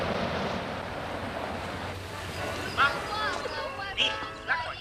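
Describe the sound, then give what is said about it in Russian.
Black Sea waves wash onto a sandy shore in a steady, rushing roar mixed with wind noise, with faint voices and a few brief higher sounds rising above the surf. “Морские волны накатываются на берег.”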